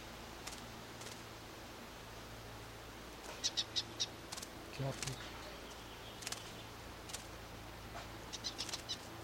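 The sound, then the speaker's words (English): Wings of a wild bird flapping as it flies out, heard as faint, soft bursts scattered across a quiet background, with a few brief high chirps partway through. “Wild bird flying out.”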